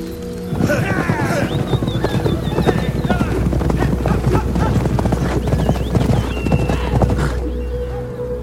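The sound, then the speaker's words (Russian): Horses gallop as riders charge toward the Pecheneg enemy. A dense, continuous drumming of hoofbeats runs throughout, with whinnies breaking through. “Мстители скачут навстречу печенегам.”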